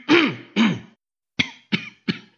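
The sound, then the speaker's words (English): A person clears their throat and coughs: two drawn-out, rasping throat clears come first, then a quick run of short, sharp coughs, all fairly loud with no talk. “Do you mind, whoever it is that's coughing so much?”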